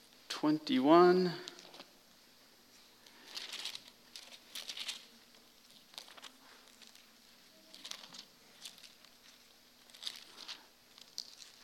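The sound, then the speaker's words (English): Bible pages turning during a church reading, heard as faint, soft papery rustles in a few separate bursts. A brief voice sounds at the start. “Love the sound of pages turning.”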